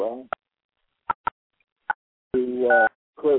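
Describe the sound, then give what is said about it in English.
Electronic ringtone beeps play in the background: four short, clipped tones spaced irregularly, followed by longer tonal stretches, with a voice present. “to create some ringtones, as you just heard in the background”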